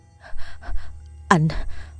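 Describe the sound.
A man gasps for breath after waking from a nightmare while holding his girlfriend tight: a few soft, breathy exhalations, then one sharp, louder gasp with a voiced tone that falls in pitch, followed by more quiet breathing.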